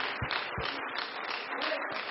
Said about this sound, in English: Yes, let's clap our hands.